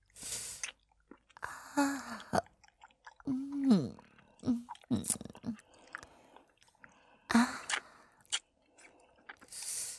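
Wet licking and sucking mouth sounds, faint and intermittent, in uneven bursts mixed with short voiced murmurs.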